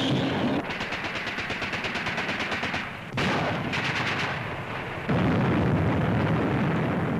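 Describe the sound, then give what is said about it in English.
Heavy artillery and gunfire from the battle near Dien Bien Phu in the Indochina war, a loud, dense barrage of rapid repeated bursts that merges into a continuous roar with a few abrupt shifts in intensity. “Meanwhile, enemy bases were subjected to constant shelling by heavy artillery.”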